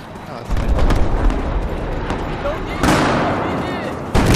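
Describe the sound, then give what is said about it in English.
Tank cannon fire in a video game, blowing up the building the player is in: a few heavy, booming blasts with rumbling, noisy tails between them. “Something was blowing up the building I was in.”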